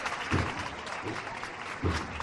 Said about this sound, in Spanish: La calle San Jacinto que se desborda. Aplausos.